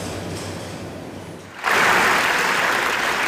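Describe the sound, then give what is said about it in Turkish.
A standing ovation for the Israeli directors of a documentary: after a quieter stretch, loud applause bursts in abruptly and holds as a dense, steady wash of clapping. “Dakikalarca ayakta alkışlandılar.”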